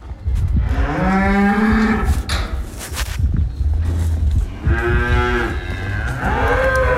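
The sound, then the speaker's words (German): Cows mooing loudly as they are brought in from pasture into the barn on a farm. Several long, deep, drawn-out moos follow one another with short gaps between. “ich bin gerade Kühe von der Weide reinholen. Und sie sind dann nachher in den Stall rein.”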